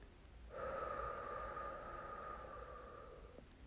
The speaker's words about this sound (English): Inhale. Exhale.